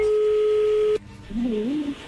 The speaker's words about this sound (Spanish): A ver, ya entró ahí la llamada, no haga ruido.